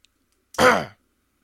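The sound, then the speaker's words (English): A single short, voiced throat clearing from a man, loud and on its own, lasting under half a second with silence before and after. “Gotta clear the throat of all the sin and mucus.”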